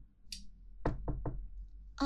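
Knocking on a door as parents wait outside, three quick, faint raps in a close cluster, followed by one more knock right at the end.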